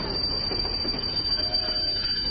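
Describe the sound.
A train pulls out of Sealdah station, heard from a general-class carriage. The wheels roll on the rails in a continuous, even rumble that stays steady for the whole clip.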